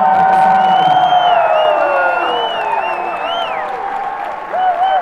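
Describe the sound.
A concert crowd cheers and applauds loudly for the opening acts, with dense clapping under shrill whistles and whoops that glide up and down, continuous throughout.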